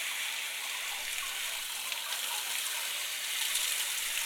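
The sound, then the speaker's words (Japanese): Warm water running to wet hair for a hair wash, a steady, soft hiss of flowing water that holds evenly throughout without breaks. “まずは髪の毛を濡らしていきますね。”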